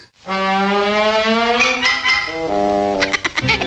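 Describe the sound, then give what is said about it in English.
A boat motor in a cartoon runs as a loud, steady buzzing drone with strong tonal harmonics that shift in pitch midway, then breaks into rapid sputtering pulses at the end. “Don't worry. It's the motor. We'll watch.”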